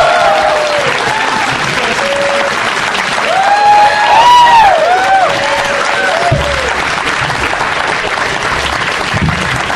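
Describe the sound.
Loud audience applause welcoming Sarah Silverman, Nick Kroll and Kumail Nanjiani, dense clapping that swells slightly midway and stays strong, with a few voices rising above it.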